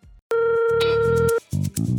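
An outgoing phone call rings out to a radio guest: a single long, pure ring tone of about a second, followed by short, low buzzing bursts.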